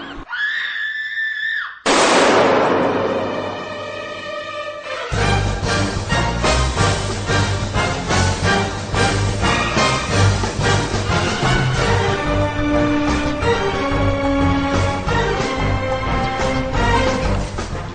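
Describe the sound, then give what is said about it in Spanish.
A sustained scream gives way to a harsh, loud screech of skidding car brakes, used as a sound effect introducing a radio segment. Dense, loud music then plays continuously to the end. “Hay que ver el grito, el frenazo, vaya entradita que tiene esta sección”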